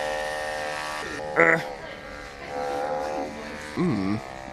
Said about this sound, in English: Right, I'll just plug it in now. Hang on. Right, plugged in. Just attach it to the nipple. This is what it's like to be a mum, breastfeeding.